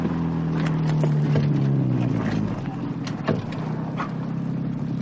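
A car arriving, its low engine hum running steadily, with the engine tone dropping partway through as it slows, over continuous wind-like rushing noise.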